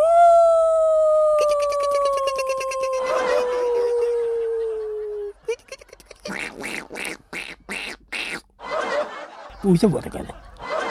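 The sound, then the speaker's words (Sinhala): A human voice imitates a dog: a long sustained howl slowly sinking in pitch, followed by a run of short, sharp bark-like bursts in an uneven rhythm. “ඔය මෝෂල විදියට බල්ලෙ cook බිරුවා නම් හොඳයි effect එක එනවා.”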